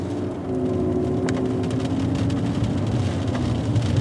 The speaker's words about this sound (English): So this is the entrance, and so there's a main avenue. We are driving in Mountain View Cemetery in Oakland, California.